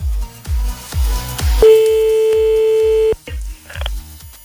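A telephone ringback tone sounds while a call waits to be answered: one long, steady, mid-pitched beep. Rhythmic low thuds run underneath throughout.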